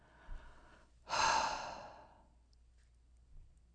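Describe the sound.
Breathing out and in: a short faint intake, then one deep, airy exhale that swells and fades slowly, followed by quiet and a soft final breath.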